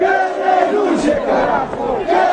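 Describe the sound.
Crowd of marchers chanting and shouting as they arrive in central La Paz, Bolivia, after a 190 km, six-day march against government policies. Many voices form a loud, sustained chant throughout.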